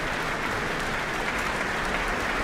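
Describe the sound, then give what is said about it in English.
Concert audience applause at Auckland Town Hall after an orchestral performance, as the musicians stand. The clapping is loud, dense and continuous, a steady wash of hands throughout. “the musicians stand and take in the applause here from the Auckland Town Hall audience and then retake their seats as their conductor bounds from the stage”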